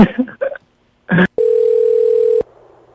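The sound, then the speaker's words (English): Telephone dial tone heard while a call is being placed: a steady, unbroken hum at one pitch, lasting about a second and cutting off cleanly at both ends. “I'll keep them on the line while I dial another one.”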